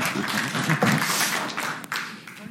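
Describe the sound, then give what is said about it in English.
An audience at a church gathering clapping to welcome a speaker, a dense, steady wash of many hands applauding without pause throughout. “so give Nathan a hand and welcome him”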